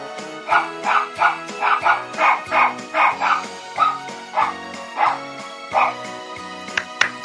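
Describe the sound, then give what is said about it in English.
A dog barks the tune of Jingle Bells in a long rhythmic run of many short barks that shift in pitch from note to note over steady tones underneath, ending with a few fainter yips. “That's my dog Teddy barking jingle bells for you.”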